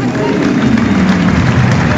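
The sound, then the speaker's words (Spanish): A stadium crowd applauds an Independiente football player as the team is announced: a dense, continuous roar of clapping and crowd noise holding at an even, loud level throughout. “Aplausos para Rey. Indiferencia y algunos silbidos para Arias.”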